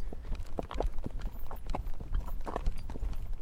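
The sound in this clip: Horse hooves clip-clop as a horse is ridden, a quiet, steady rhythm of many hoof strikes with no talk.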